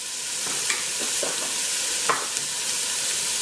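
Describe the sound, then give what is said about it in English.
Vegetables stir-frying crisply on a stove for fried rice, with a steady hissing sizzle throughout and a few soft clatters of stirring breaking through. “I like my vegetables really crispy. If you like your vegetables a little more softer, go ahead and leave it more on the stove.”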